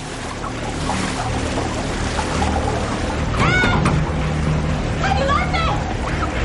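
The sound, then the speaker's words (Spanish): Water pouring from a pipe into a glass tank: a continuous churning, splashing rush at steady loudness throughout, with brief vocal sounds over it. “está dentro de una urna de cristal que se llena de agua poco a poco mediante una cañería.”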